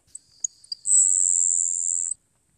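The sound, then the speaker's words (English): Song of a Florida grasshopper sparrow, an endangered bird: a few faint, high ticking notes followed by a long, thin, insect-like buzz that lasts about a second, heard alone in quiet. “It's the Florida grasshopper sparrow.”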